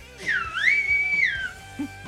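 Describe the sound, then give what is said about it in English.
A whistle sounded live, one bright sustained tone that dips, swoops up, holds steady and then slides back down over about a second and a half. “we would have carted up that whistle. We would have put that on a cartridge, but you were doing those live.”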